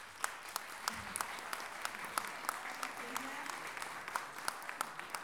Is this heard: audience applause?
yes

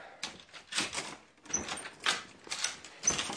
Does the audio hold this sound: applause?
no

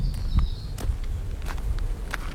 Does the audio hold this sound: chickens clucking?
no

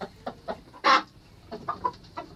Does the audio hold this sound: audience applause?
no

